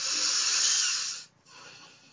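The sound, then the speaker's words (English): Someone takes a soft, airy breath in a long faint hiss, then after a brief pause a quieter second breath follows. “We take a breath.”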